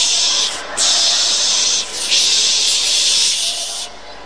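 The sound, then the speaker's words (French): A voice imitates a cologne bottle spraying, with a few loud, breathy, high-pitched 'psh' hisses in separate bursts and nothing else beneath them. “So I got my cologne bottle. Alors j'ai acheté une bouteille de parfum. And I held up the corsage. Et j'ai tenu le bouquet. And I went like this. Psh,”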